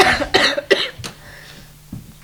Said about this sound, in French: Essayez de soigner votre toux, hein, parce qu'on va tous être malades.